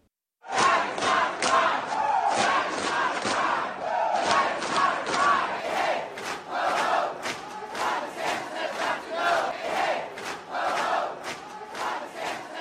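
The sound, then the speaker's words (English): An estimated 300 drag queens and supporters protest at the Florida Statehouse in Tallahassee, a large crowd chanting in a steady rhythmic pulse, voices rising and falling in repeated shouted phrases that continue throughout. “That's the sound of an estimated 300 drag queens and their supporters storming the Florida Statehouse on April 24th.”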